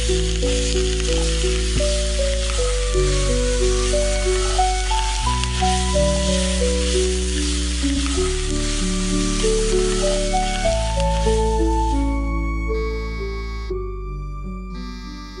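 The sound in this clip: Sauce with vinegar boiling in a pan gives a steady crackling sizzle and hiss that runs under music until near the end.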